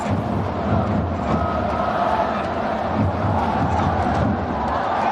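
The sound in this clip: Yancheng football fans cheer in the stands during a match, a dense, continuous crowd roar. Its loudness barely varies across the whole stretch, with murmured voices and shouts blended into the mass.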